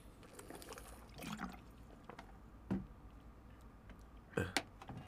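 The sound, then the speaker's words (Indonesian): A person drinking water while talking, quiet sips and swallows with wet liquid sounds, a few soft gulps spaced out and two closer together at the end. “Ini gue minum air aja ketahan di tenggorokan gara-gara kan ngomong.”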